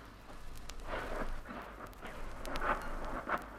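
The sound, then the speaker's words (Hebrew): Artillery shells tank concentrations in Jordanian territory, heard as low, muffled rumbling booms over a continuous noisy background, with a few heavier blasts standing out. “הם כנראה מפגיזים ריכוזים טנקים בשטח ירדן.”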